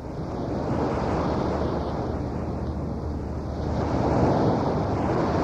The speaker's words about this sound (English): That is the sound of the waves here on the famous beach at Waikiki.